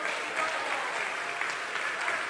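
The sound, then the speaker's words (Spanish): Applause from a church audience, clapping for the Lord during worship: even, continuous clapping at moderate loudness, with no break from start to finish. “¿Usted puede darle un aplauso al Señor en esta hora?”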